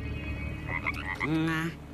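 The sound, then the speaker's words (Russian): A frog croaks in a short run of quick croaks, then a longer, lower sustained croak. It is moderately loud over a faint steady hum. “Раз он идеальный стан с автоматической наводкой, я поместил ему в голову лягушку и подключил ее мозг к датчикам слежения. Пусть теперь попытается нацелиться на нас лягушачьими рефлексами.”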